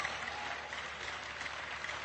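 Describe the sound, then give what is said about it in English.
A church audience claps and applauds in praise, producing a faint but steady patter of many hands that continues evenly from start to finish. “Give the Lord a clap and a shout offering.”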